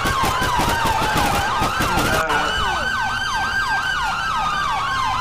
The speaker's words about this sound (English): Sirens on.